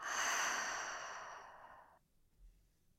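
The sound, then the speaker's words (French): A deep breath out through the mouth during a guided relaxation exercise: a long, airy, sighing exhale that fades over about two seconds, followed by a faint, soft breath. “On va prendre trois grandes respirations. Inspire par le nez et souffle par la bouche.”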